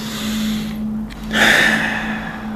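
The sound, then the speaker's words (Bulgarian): A deep breath during a guided meditation exercise, heard as one long breathy hiss of air that swells and fades, set over a steady low hum with no talking. “Вдишай по-дълбоко няколко пъти.”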